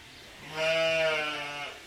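A single sheep bleat, about a second long: a wavering, nasal, strongly harmonic cry that swells and then fades, heard alone.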